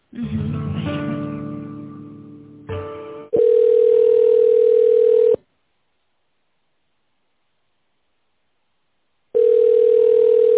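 Telephone line tones while a call is being connected to a manager: a buzzy harmonic tone, then two loud, steady single-pitch tones separated by a long silence, like a ringing signal.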